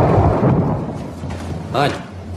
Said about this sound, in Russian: Ань, что это? Гроза. В сентябре гроза?